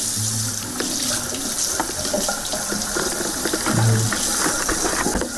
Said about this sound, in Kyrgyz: эч кыйналбай ымыркайды жуунтуп жалайыгын алмаштырып